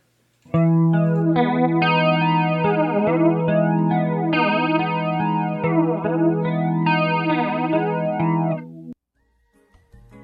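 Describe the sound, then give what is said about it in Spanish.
An electric guitar played through a chain of effects including distortion and chorus: sustained chords ring for about eight seconds with a sweeping, shimmering modulation, then cut off abruptly. “Ahí está, vamos a escucharlo una vez más. Recuerden que estos son todos los efectos que hemos visto.”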